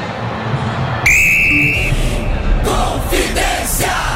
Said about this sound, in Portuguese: Apita pela última vez no primeiro tempo, Lucas Casagrande, pelo Campeonato Brasileiro.